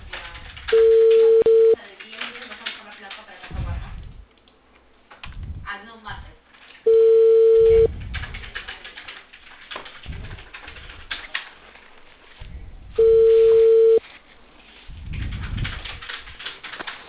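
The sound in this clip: A telephone call rings three times before it is answered, each a steady, mid-pitched tone lasting about a second, separated by longer gaps of low, muffled line noise.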